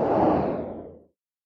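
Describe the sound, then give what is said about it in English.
A single broad whoosh sound effect opens a football show intro. It swells loudly, then fades out after about a second into silence. “And there's the Football Scoop intro.”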